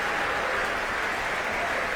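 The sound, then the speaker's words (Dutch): Concert audience applauding the musicians on a Thursday evening at the Concertgebouw: a continuous, even wash of many hands clapping, steady throughout. “En applaus nu ook voor de verschillende muzici.”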